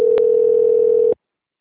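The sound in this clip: A steady telephone dial tone plays while a call is being placed: one continuous mid-pitched tone, loud and alone, lasting about a second before it cuts off abruptly.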